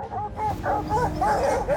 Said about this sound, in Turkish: diğer bütün köpekler burada resmen kuduruyor